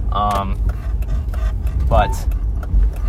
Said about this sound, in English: I'm currently recording a podcast while driving